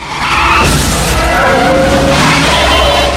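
Tires skid and squeal as an ambulance brakes violently and swerves across a road, clipping another car: a loud, continuous scraping screech that holds steady from start to finish.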